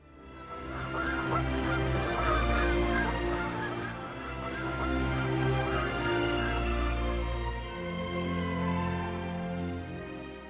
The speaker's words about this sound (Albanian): Këta zogjt janë thëllëzat e bardhat njohura gjithashtu si thëllëzat e Mississipit.